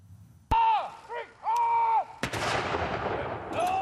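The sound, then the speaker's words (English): Military guns fire a salute to the late Prince Philip across Britain, with a few sharp, booming reports, each followed by a long rolling decay. “Across Britain, military guns fire a salute to the late Prince Philip a day after his death.”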